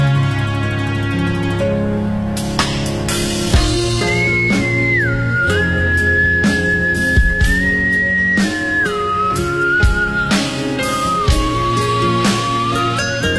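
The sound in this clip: A person whistles a tune, a clear melody carried over the instrumental backing of a pop song and steady from start to end.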